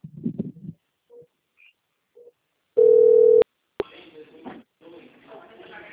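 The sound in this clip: A telephone call's ringing tone: one steady, mid-pitched beep lasting over half a second, with short voices and faint bleeps before it and talk following.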